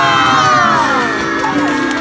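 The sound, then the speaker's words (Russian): Children shouting "hurrah" together at the opening of a sensory park, a loud, sustained chorus of high voices that slowly trails off. “Мы открываем сенсорный парк, ребята! Дружно крикнем детвора парку нашему! Ура!”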